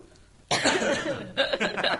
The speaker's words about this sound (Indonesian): Saya batuk dulu.